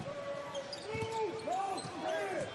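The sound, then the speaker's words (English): NBA basketball game footage autoplays on a website, quiet throughout, with ball bounces and game voices in the background. “But sorry about that, if you could hear that. And it's going to happen again. Because in order for me to pull up the shot chart, I have to... NBA automatically plays video on me.”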